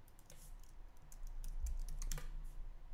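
Typing on a computer keyboard: quick, uneven runs of light key clicks, fairly faint, over a low steady hum, with no talk.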